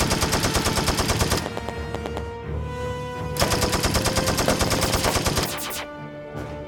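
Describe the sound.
Rapid machine-gun and rifle fire rings out in a science-fiction audio drama battle where soldiers trade shots with crash-landed aliens. The loud bursts run continuously, broken by two short lulls, with no voices.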